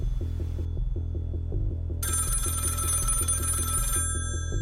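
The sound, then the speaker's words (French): A telephone rings at night, its bell buzzing in a rapid, continuous pattern that repeats steadily and loudly throughout, with no voices. “l'ambulancier commence à recevoir des coups de fil anonymes la nuit”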